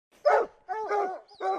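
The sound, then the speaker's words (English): Hounds barking and baying as they chase a cougar in northeastern Washington: a few loud, drawn-out barks in quick succession, with no talk. “This is the sound of hounds chasing a cougar in northeastern Washington.”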